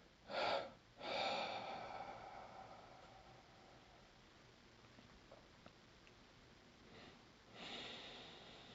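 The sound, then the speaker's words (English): Quiet breathing in and out, alternating short and long breaths. Two quick breaths open, followed by a long, soft release. After a hushed pause come a faint breath and a longer one, with no talking. “Just experimenting with that short breath, long breath, in, out.”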